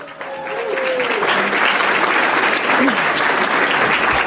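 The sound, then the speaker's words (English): An audience at the City Club of Chicago applauds to welcome a speaker: clapping builds quickly over the first second, then holds as a loud, dense, steady roar of many hands. “So without any further introductions, ladies and gentlemen, let's give a big round of welcome to Andrea Zopp.”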